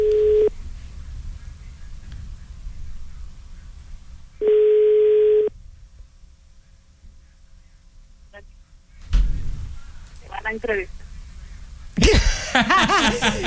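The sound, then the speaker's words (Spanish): Telephone dial tone sounds while a call is being placed: two steady, mid-pitched tone bursts, each about a second long, separated by quieter stretches, with voices near the end. “Recuerden que le queremos marcar a Víctor Manuel. Din, din. Marcando, mi Charlie.”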